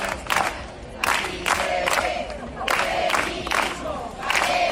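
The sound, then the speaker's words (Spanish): Hundreds of protesters at the obelisk in A Coruña chant a rhythmic slogan, loud bursts of massed voices repeating in a steady beat with brief dips between phrases. “Cientos de personas se han concentrado en el obelisco para pedir la dimisión de Luis Rubiales por el beso no consentido a Jenny Hermoso.”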